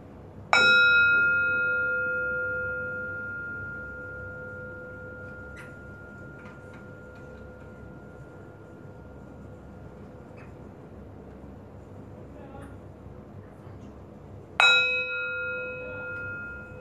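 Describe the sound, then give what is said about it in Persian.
A bell rung during a relaxation session, struck twice. Each strike is a clear, bright ringing tone with a long fading tail, and the first dies away into near silence before the second rings out. “اجازه بدین فرکانس این زنگ تنش از جسمتون میگه.”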